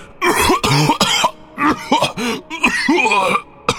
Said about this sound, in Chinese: 卡加斯大声喊着，深呼吸加重了他的伤势，让他突然咳嗽起来。